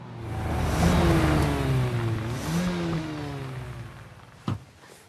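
The engine of a new car revs as the car arrives, its note climbing and falling through strong, smooth revs. The sound eases to a lower hum, with one brief sharp knock near the end.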